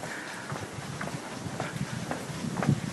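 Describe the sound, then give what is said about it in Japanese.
Footsteps of a person walking outdoors: a steady series of soft, dull thuds at an even walking pace over a faint wind-like hiss. “ただいま歩いております。”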